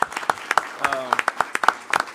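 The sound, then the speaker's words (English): Scattered audience hand clapping at a meeting, sparse individual claps with uneven timing, with a voice briefly heard among them. “I believe that's worth a hand clap, Mr. Allen, for doing a great job.”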